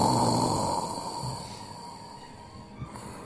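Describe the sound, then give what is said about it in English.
Heavy, breathy exhale pushed into a covered microphone by someone imitating a masked villain's breathing. It is one long, loud, rough rush of air that slowly tapers off, with no talk. “That's the worst Darth Vader I've ever heard.”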